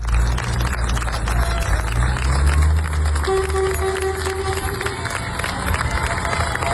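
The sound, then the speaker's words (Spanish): A townspeople's crowd in Niebla cheers and applauds in farewell to military emergency troops who fought Andalusia's largest recorded wildfire; a dense, continuous, loud roar of cheering voices and clapping. “Este es el sonido de la despedida del pueblo de Niebla, los efectivos de la UME que han estado trabajando día y noche hasta dar por estabilizado el que ya es el mayor incendio forestal de la historia de Andalucía.”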